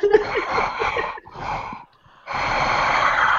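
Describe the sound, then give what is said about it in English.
Heavy breathing straight into a microphone, loud and rasping, in a few long noisy pulls with a short gap before the last, drawn-out breath. “So I will no longer breathe in the microphone because I don't know how that's going to come out in post-production.”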